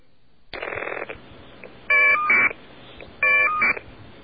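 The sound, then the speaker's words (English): Caller ID data tones from two separate phone calls play close together: short bursts of shrill, warbling electronic tones separated by brief gaps, with the later bursts louder and sharper than the first. “I'm going to play the two really, really close to each other now so our listeners can make the final determination. The two bits of caller ID data from two separate calls.”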